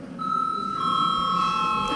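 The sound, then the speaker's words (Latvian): An electronic bell sounds in the Latvian parliament to call members to a vote, a sustained, steady ringing tone that holds throughout with no voices over it. “lūdzu zvanu.”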